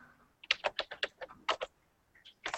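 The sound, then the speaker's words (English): Computer keyboard typing during an online roleplaying game session: a quick, irregular burst of many faint key clicks, a short pause, then a few more keystrokes. “There's a lot of typing going on.”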